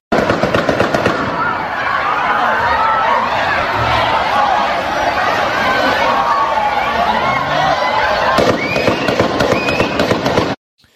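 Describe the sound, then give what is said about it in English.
Gunshots ring out in a video recorded during a shooting: sharp cracks burst over a dense, steady wash of crowd noise, with clusters of shots at the very start and again in the final couple of seconds. “I do have another video where you can actually hear the shooting begin.”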